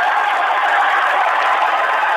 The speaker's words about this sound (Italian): applaudite, piazza!